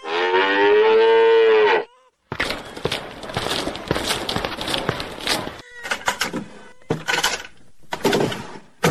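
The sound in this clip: A cow in a cowshed lets out one long, loud, steady moo, followed by several seconds of noisy rustling and clatter with short pauses.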